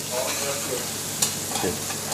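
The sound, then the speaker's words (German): Small diagonally cut diamond-shaped pieces of asparagus sizzle as they are stirred and briefly roasted in a pan. The frying hiss holds steady, with a few sharp scraping clicks from the stirring. “beziehungsweise rösten wir ihn kurz an. So in kleine Stücke geschnitten. Schräg in Rauten geschnitten, damit der Spargel keine Fäden zieht.”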